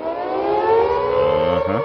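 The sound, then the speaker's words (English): An air raid siren sound effect wails as a single sustained, loud, buzzy tone rich in harmonics, holding nearly steady pitch through the short clip with no voices. “So if you guys don't know what that sound is, that's going to be anytime we talk about Joe Biden, that's his intro music. You know, we're going to fake an air raid siren”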